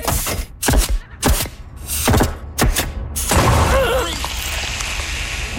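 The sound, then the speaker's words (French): An early 20th-century hydraulic rivet-setting machine starts up. Several heavy thumps and clanks come first, then a loud, sustained mechanical roar with a wavering whine running through it. “je vais maintenant partir la grosse machine encombrante à poser les rivets du début du 20e siècle. OK, mais attention à tes jambes, le piston hydraulique part rapidement.”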